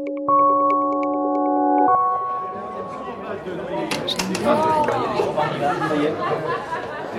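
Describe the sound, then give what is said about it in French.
Cocktail party chatter: many overlapping voices talk and laugh at once in a dense, steady murmur. It follows a brief sustained electronic chord at the very start. “Est-ce que vous entendez quelque chose dans cette ambiance de cocktail party?”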